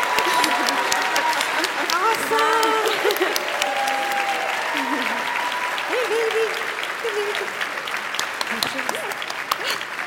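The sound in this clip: Audience applause fills a theatre as a panelist is welcomed on stage. Dense, steady clapping runs for the whole stretch, with voices calling out over it.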